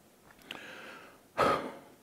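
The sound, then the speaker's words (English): A single deep breath: a soft rush of air swells suddenly and fades over about half a second, following a quiet stretch with a couple of faint clicks. “That deep breath, did you hear that? That's exactly what I did at that moment.”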